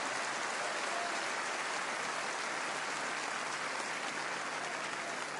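An audience at a Chilean comedian's stand-up show applauds in a dense, even wash of clapping that holds steady throughout without breaks.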